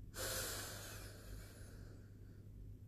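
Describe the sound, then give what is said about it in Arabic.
Deep inhalation through the nose during a breathing exercise: a single long, airy hiss that starts abruptly and slowly tapers over about two seconds, alone without talk. “شهيق بعد في للأربعة”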